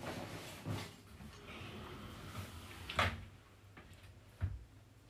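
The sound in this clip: Two backpacks are shoved into a cupboard, making faint rustling and a few dull bumps and knocks against a quiet background, with no talking.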